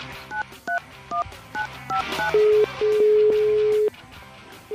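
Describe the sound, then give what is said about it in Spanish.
A telephone number is dialed on a keypad: a quick run of short two-tone beeps, then a few longer steady tones, the last held for about a second. “Pero primero le vamos a marcar a uno de los institutos más importantes del mundo en investigación.”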